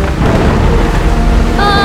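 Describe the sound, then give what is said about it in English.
A sudden thunderstorm with thunder and rain strikes a boat at sea during a chase, heard as a loud, dense, unbroken roar with deep rumbling underneath that holds steady for the whole moment. “Is it me, or did that storm just come out from nowhere?”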